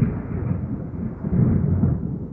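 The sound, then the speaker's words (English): Thunder rolls as a deep, sustained rumble that swells louder partway through and then slowly fades, with no talking. “Wow, that was another good one. You could hear the thunder coming through right now.”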